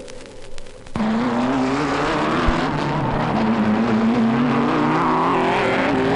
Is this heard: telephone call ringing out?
no